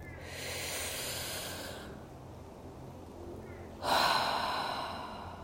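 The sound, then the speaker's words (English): A deep breath: a long, airy inhale lasting nearly two seconds, a quiet pause, then a louder, breathy exhale that gradually fades out. “let's just take a deep breath together.”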